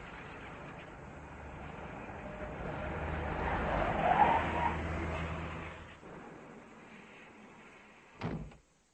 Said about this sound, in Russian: Мы поехали дальше. Машина промчалась по улицам и выскочила на набережную канала.